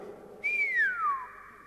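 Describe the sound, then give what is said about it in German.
A person imitates an appreciative whistle with a single faint whistle that starts high and glides smoothly downward, heard alone. “da lässt er die Luft entweichen in Form eines anerkennenden Pfiffes. Also ungefähr so.”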